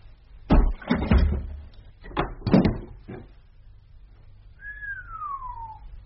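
A locked door being forced and broken open: a cluster of heavy thuds and bangs, then a few sharper knocks, followed by a thin squeal that slides downward in pitch.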